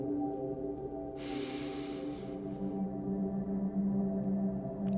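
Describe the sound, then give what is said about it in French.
One deep breath drawn in during a guided relaxation exercise, a soft, airy inhalation lasting about a second over sustained low ambient tones that continue after it ends. “poursuivre par une dernière et grande inspiration.”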